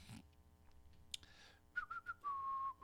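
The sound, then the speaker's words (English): A person whistling close into the microphone, a few short chirping notes followed by one longer held tone, fairly soft, with faint clicks before it. “Am I whistling to the mic? Sorry.”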